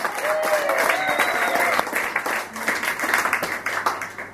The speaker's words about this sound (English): Please put your hands together and make some noise!